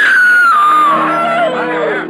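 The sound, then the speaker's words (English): A woman screams in a long, high, wavering cry that slides downward in pitch and fades slightly at the end, loud and alone, with a faint murmur of other voices beneath it. “Suddenly, a woman screams.”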